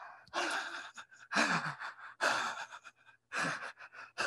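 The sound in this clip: A voice imitates a child's shaky, stuttering breathing just after crying. There are four bursts of quick, trembling gasps and sighing breaths, with short pauses between them.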